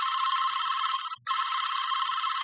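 A telephone ringing unanswered: a bright, buzzing electronic trill that sounds steadily, breaks off for a brief moment midway, then resumes at the same level. No one speaks.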